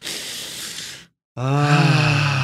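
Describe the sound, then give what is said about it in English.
A deep breath drawn in before singing, heard as a loud, hissing rush of air lasting about a second. A short silence follows, then a sustained voiced tone begins. “let me make sure I have a deep breath.”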